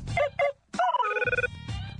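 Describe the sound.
A telephone rings with a bright, steady electronic tone, sounding alongside brief talk.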